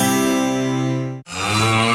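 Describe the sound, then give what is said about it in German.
A mooing cow sound comes from a Müllermilch bottle in an advert, a loud, drawn-out, buzzy moo that breaks off briefly in the middle and resumes with a brighter, rougher second part. “Find die letzte muhende Müllermilchflasche und kassier 50.000 Euro. Mu kann süchtig machen.”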